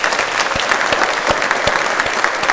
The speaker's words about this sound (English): So let's give Dan a hand. He's a great guy.